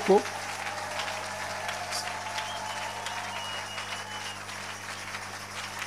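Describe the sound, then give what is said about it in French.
Church audience acclaiming God with a steady wash of clapping and crowd noise, starting with a brief louder burst, over a constant low hum. “Est-ce que maintenant tu peux acclamer le Seigneur?”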